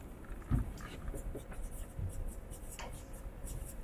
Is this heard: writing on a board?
yes